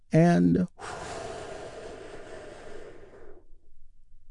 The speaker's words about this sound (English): Here is the beginning of the healing as we begin with a big, deep healing breath. All together, here we go.